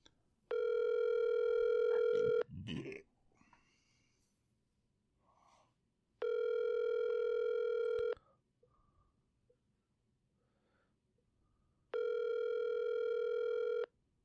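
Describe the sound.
A telephone call rings out over speakerphone to a closed business: three long, steady electronic ring tones, evenly spaced with quiet gaps between them, and a faint breath or rustle after the first.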